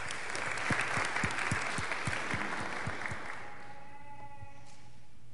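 A church audience applauds to welcome two visitors during a service. Many steady, fairly loud claps go on for about three seconds, then thin out and stop.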